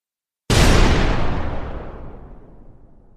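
A rocket lance launches into the sky with a sudden, loud explosive blast that opens into a broad roar and slowly fades over a few seconds, with no voices.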